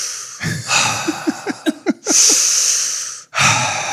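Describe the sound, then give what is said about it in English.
Heavy breathing down a phone line: loud, rough breaths with short voiced grunts between them, and a long drawn-out exhale near the middle. “just breathing, heavy breathing. You can hear this.”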